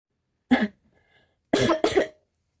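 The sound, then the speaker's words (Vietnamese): Choking coughs from someone drinking soup: one harsh cough, a short pause, then two more close together, loud and abrupt against silence. “Cơ Việt đang uống canh bị sặc.”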